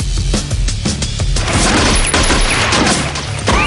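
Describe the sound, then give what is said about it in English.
Gunfire from two handguns: a rapid volley of loud, sharp shots packed close together, heard over a dense, continuous roar of noise with no talking. “Lefty bounces up and down excitedly, wielding two handguns. He shoots at Danny.”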